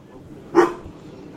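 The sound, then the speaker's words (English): A dog barks once from a couch: a single short, sharp, fairly loud bark that rises abruptly and fades quickly, with near quiet before and after. “Did that scare you, Tim? Chew barking?”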